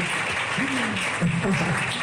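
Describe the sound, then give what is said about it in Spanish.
An audience claps steadily for an athlete's coach during a speech. A voice speaks briefly over the even wash of clapping. “José Antonio, un aplauso, por favor, para José.”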